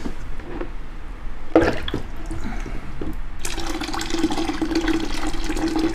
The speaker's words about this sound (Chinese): 我们不是在尿尿，这个就是，泡脚，就是热水放在桶里， 加热水。 所以对，我们就是加热水